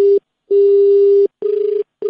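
A telephone tone sounds after a call is hung up: a steady, mid-pitched electronic beep repeats in a few on-off bursts of uneven length, loud and alone.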